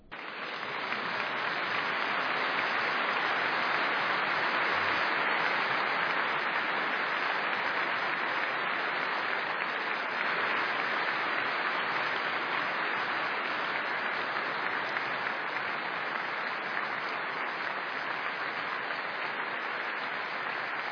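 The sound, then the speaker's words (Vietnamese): Long applause from the audience after the Pope's homily at an evening prayer service. Dense, even clapping holds at a steady level for about twenty seconds without a break. “Bài giảng của Đức Thánh Cha đã được mọi người vỗ tay rất lâu.”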